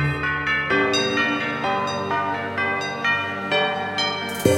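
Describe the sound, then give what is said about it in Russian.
Church bells ringing in a rapid series of many overlapping strikes, each a bright, harmonic tone that sustains and blends into the next, fairly loud and steady from start to finish. “Колокольный звон.”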